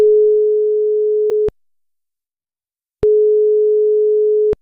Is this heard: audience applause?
no